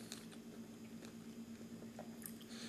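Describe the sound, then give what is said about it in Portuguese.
Faint, wet chewing and biting of a guava: a few soft squelchy crunches scattered over a steady low electrical hum, with no talking. “E aí eu comecei a comer uma goiaba. Tô comendo uma goiaba ainda.”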